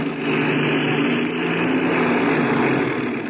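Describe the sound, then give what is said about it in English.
Steady engine drone of an airplane taxiing fast across a soft lake bed, a loud, even, unbroken hum with no voices. “I'm going to taxi real fast. Okay, go ahead. By getting up a little speed, the wings will take some of the weight off the wheel.”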